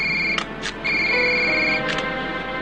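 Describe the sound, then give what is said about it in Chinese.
An electronic telephone ringtone sounds as steady, high, piercing tones with a short break partway through, marked by a few sharp clicks over low background noise. “接电话。”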